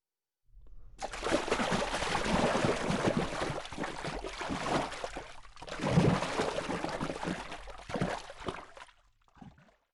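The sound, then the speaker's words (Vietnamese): Water slapped hard and splashing vigorously, a continuous wash of churning splashes that swells and dips over several seconds with no voices. “Vâng ạ, đây là từ dùng để miêu tả âm thanh nước bị vỗ mạnh, bắn tung tóe.”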